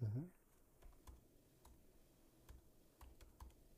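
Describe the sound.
Typing on a computer keyboard gives faint, scattered clicks at an irregular pace over a low background. A brief louder low sound comes at the very start.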